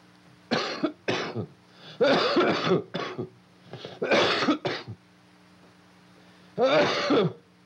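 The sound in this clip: A coughing fit with throat clearing from a narrator: repeated harsh, raspy coughs and throaty clears come in uneven bursts, with short pauses between them, over a low steady hum.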